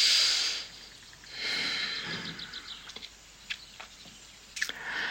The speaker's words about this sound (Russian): дыхания естественного но через нос, вдох через нос.